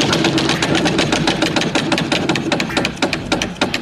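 A novelty prize wheel spins, giving a fast, even run of many loud mechanical ticks over a low rattling hum.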